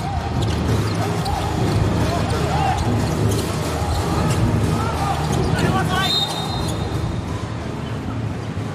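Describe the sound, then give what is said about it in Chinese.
A basketball is dribbled during a game between Jiangxi Nanchang and Inner Mongolia Hohhot. Repeated thudding bounces sit under continuous arena crowd noise, and voices talk over them throughout. “背后运球，左路突分，”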